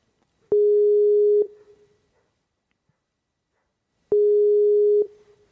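Telephone tone heard while calling back after hanging up a video call: two steady, single-pitched beeps, each about a second long, separated by several seconds of silence.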